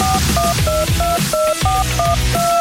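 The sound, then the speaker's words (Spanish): A rapid series of two-pitched electronic telephone beeps signals an incoming call on a music radio show. The short tones repeat in a quick, steady rhythm over loud background music. “Tenemos una llamada.”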